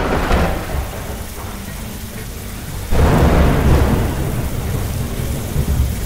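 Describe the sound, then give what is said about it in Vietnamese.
Heavy rain pours steadily through a stormy night while thunder rumbles, swelling into a louder, fuller roar about halfway through and then easing back to a dense, constant downpour. “Đêm đó mưa to gió lớn, trên trời cao từng tảng mây đen kịch lơ lửng trên đỉnh đầu. Từng cơn gió mạnh thổi ngã bạc cây cối, giật từng cơn, sấm chớp nhì nhằn,”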